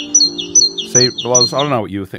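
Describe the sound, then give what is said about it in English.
High, thin chirps of a great tit sound in a few quick notes, and then people begin talking. “It's a bird. A great tit is a bird. A famous saying about great tits is that if you hear a bird call you don't recognise, it is probably a great tit.”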